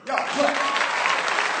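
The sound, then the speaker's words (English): An audience clapping at a stand-up comedy show: a sustained burst of applause from many hands, dense and even throughout, with some voices mixed in. “How many of y'all clap if you use Craigslist?”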